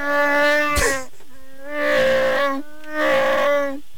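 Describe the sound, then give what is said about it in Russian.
Chewbacca's roar from Star Wars, built from bear, badger and walrus sounds, comes as three drawn-out, throaty groaning calls separated by short gaps. A sharp burst cuts into the first call. “звук Чубаки, они создали из трех звука. Это звук медведя, барсука и моржа.”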